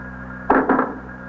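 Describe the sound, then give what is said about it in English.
A door being opened makes two short scraping knocks in quick succession over a steady low hum. “Gonna open the door.”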